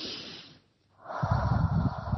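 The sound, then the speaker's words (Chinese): Deep breathing during a guided sleep meditation. An airy exhale fades into a short silence, then a louder, rougher breath follows and carries on steadily to the end. “好，跟着我一起深呼吸。”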